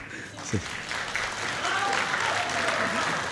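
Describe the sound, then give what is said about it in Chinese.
Sparse audience applause at a traditional Chinese crosstalk (xiangsheng) performance: thin, scattered clapping that continues steadily throughout, with a voice briefly audible over it. “感谢朋友们稀稀拉拉的掌声。”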